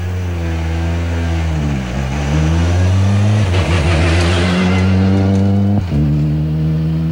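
A rally car pulls away from a time control after the gear is engaged, its engine revving hard. The loud, steady engine note climbs in pitch, with brief dips as the gears change.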